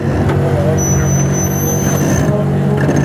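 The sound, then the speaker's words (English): A pickup truck with large tires, adjustable air suspension and four-wheel steering grinds over rough terrain and climbs hills. Its engine drones loudly and steadily throughout. “While it's cool to watch a pickup maneuver terrain like this, climbing hills without getting hung up,”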